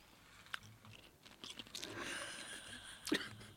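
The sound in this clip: Faint chewing of hard, crunchy pasta, with a few sharp crunches and a stretch of quieter grinding mouth noise in between, no talking.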